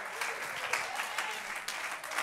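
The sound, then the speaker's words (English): A church audience claps during worship: many hands in a continuous, even patter that stays fairly soft and steady from start to finish. “Clap your hands unto the Lord and magnify the name of Jesus.”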